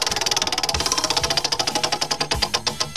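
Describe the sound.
A spinning prize wheel makes rapid, even clicks as its pointer strikes the pegs. The ticks come in a steady stream that gradually spaces out toward the end as the wheel slows, and no one talks over them.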